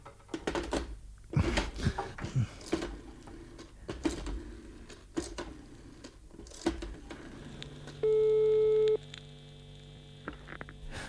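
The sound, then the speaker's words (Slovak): Telephone line tone after a call is cut off: crackling, clicking line noise, then one steady electronic tone lasting about a second, followed by more faint crackle. “Haló? Počujete ma? Haló? Počujete? Zase nás niečo prerušilo.”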